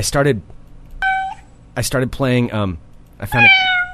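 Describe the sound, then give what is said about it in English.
Several cat meows played from a soundboard on a computer, some rising and falling in pitch and one flatter and higher, separated by short gaps. “I found a cat soundboard. Oh God. And I started playing it off my computer”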